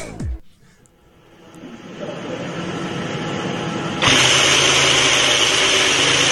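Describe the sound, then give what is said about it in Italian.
A Ferrari F2018 Formula 1 car engine starts for the first time: a brief falling whine opens, then a dense mechanical roar builds steadily and steps up louder about midway, holding at full strength to the end. “Il motore che si accende per la prima volta della nuova Ferrari F2018.”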